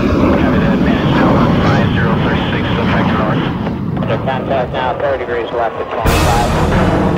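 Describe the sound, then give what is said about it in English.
Jet roar of American F-80 Shooting Star fighters taking off for a combat mission, a loud, steady engine rush that fills the whole stretch while a man talks over it. “A group of American F-80 Shooting Star fighters take off for a combat mission.”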